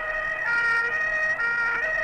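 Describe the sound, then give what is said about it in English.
An ambulance siren races through city streets in Rome, a loud, sustained, high tonal wail that holds steady across two seconds with slight shifts in tone and no voices. “an ambulance races through the streets of Rome”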